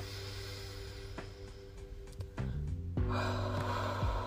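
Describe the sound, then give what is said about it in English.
Deep breaths taken during a guided relaxation exercise, heard as a couple of breathy rushes of air in the second half over a steady low tonal hum. “Okay, so let's just do 2 deep breaths.”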